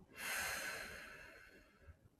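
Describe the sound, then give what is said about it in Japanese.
A soft breath during a guided breathing exercise, one long airy rush of air that swells quickly and then slowly fades away, faint and alone with no talking. “吸って。吐く。吸って。吐く。”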